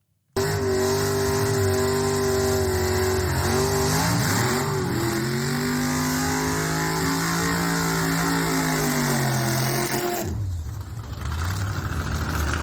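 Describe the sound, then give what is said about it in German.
Roaring engine of a quarter-mile dragster race car doing a burnout: a loud, sustained, heavy engine roar whose pitch wavers and sags, cutting out briefly near the end before surging back. “Das war ein kleiner Burnout von einem Dragster, von einem Viertelmeile-Rennfahrzeug”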